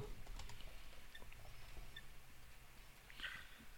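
Many soft, irregular key clicks of someone typing on a computer keyboard. The quiet pattering runs in uneven bursts throughout, with no talk.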